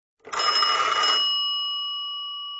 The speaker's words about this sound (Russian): когда вдруг зазвонил телефон